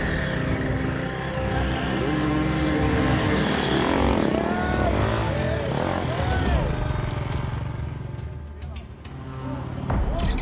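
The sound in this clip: Dirt bike engine revving hard during a race through the woods as riders wrestle the bike along a forest trail; a loud, continuous snarl with pitch repeatedly swooping up and down as the throttle opens and closes.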